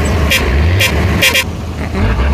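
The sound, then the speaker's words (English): A bush truck pulls in and sounds its horn: several short, bright toots ring out over a loud, steady low engine rumble, then the horn stops and the rumble carries on. “There is a bush truck. And it finally come back.”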